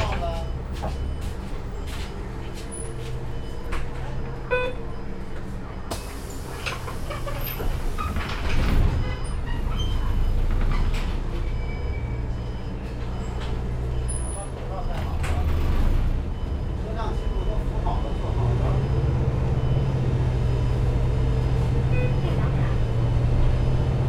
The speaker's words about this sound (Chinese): 各位乘客，安德路西口到了，请您从后门下车，下车请刷卡。